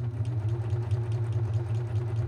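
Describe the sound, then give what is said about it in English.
Coverstitch sewing machine stitching over fabric, running back over earlier stitching: a continuous low motor hum with a fast, even flutter, steady and fairly quiet throughout, with no voices. “I've cut off my tails from my previous stitching, and I'm going to go over my previous stitching.”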